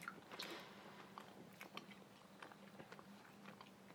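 Faint chewing and biting of a piece of food with cheese in it, soft irregular clicks and moist squishes of the mouth working steadily over several seconds.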